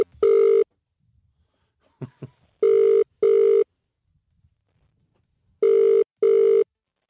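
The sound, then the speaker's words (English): Ringback of an outgoing telephone call: the end of one ring, then two double-burst rings of a steady mid-pitched tone, with silent gaps and a few faint clicks between them. “Good luck dialing him up now. It's on you.”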